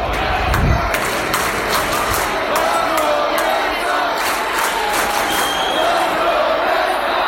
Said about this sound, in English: The best part about this chant is this is how I find the Rays fans when the game's going.